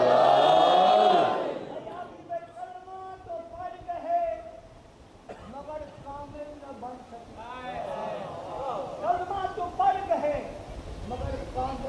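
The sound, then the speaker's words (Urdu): A crowd chants a religious slogan, Haidari, in unison at a gathering. The many voices are loudest at the very start, then continue in sustained, tonal chanting throughout. “مل کے نعرہ لگائیں گے، کوئی خاموش نہیں رہے گا، حیدری”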